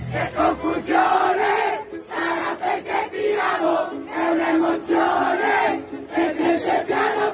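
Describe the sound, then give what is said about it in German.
A large crowd sings a pop song loudly and fervently, with voices merging into a strong chorus across sung phrases separated by brief dips. “wird in unzähligen Filmchen bei TikTok, Instagram oder YouTube inbrünstig und aus voller Kehle gesungen. Von mitunter großen Menschenmengen.”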